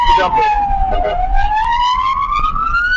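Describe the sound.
An ambulance siren wails in a steady rising and falling tone over traffic noise, with a few short bursts that may be horn warnings, loud throughout, and a voice talks beneath it.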